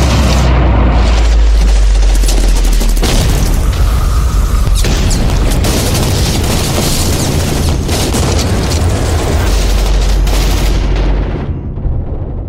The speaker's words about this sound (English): Troops in contact, taking heavy fire, I need backup now!